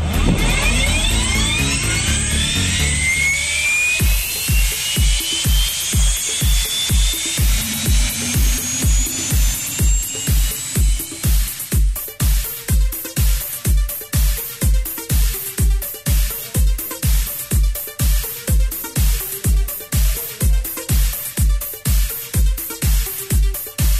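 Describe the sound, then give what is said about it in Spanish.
An aircraft engine starting up for flight, spooling up with a rising whine for about four seconds, then a steady series of regular low thumps that continues to the end. “en Parking Q, solicito puesta en marcha para posterior plan de vuelo presentado”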